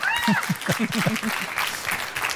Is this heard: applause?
yes